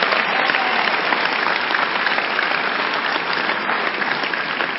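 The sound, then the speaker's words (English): A church audience applauds with dense, steady clapping from many hands, evenly loud and unbroken for a few seconds. “You can't clap. This one, I expected you to clap and clap well.”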